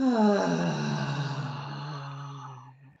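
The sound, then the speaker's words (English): A long, voiced exhale after a held deep breath, done as a breathing exercise. It is a low, steady moaning tone that lasts about three seconds and fades at the end. “And then hold it at the top of the breath and then push it out, kind of like this.”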